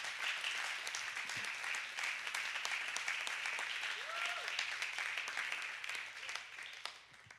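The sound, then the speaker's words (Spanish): A church audience applauding, a steady, even wash of clapping that holds at a fairly low level for the whole stretch. “dale un fuerte aplauso a Dios.”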